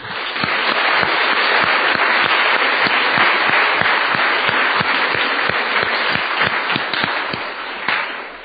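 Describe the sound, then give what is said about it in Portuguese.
A church audience applauds in dense, steady clapping that stays loud and sustained for about eight seconds, with individual claps blurring into a continuous roar that tapers slightly at the end. “Vamos lá aplaudir Jesus.”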